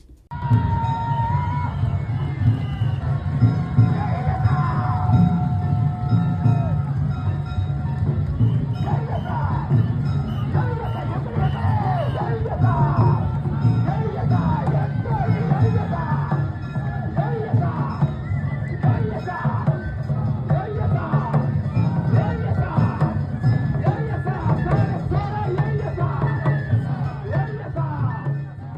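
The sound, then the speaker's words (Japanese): Parade crowd around the Funadanjiri boat float of Imazu Fukuo Shrine during a city centennial procession, dense continuous crowd noise with shouting voices throughout. “はい、これは、今津福王神社の、船だんじりの音です。”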